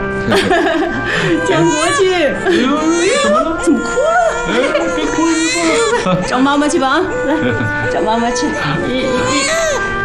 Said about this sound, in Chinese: 哎呦， 怎么哭了？哎，哭什么？ 找妈妈去吧啊！